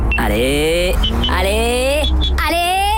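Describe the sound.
A car engine with a start-stop system sounds loudly and steadily, its droning pitch climbing, dropping back, then climbing again several times.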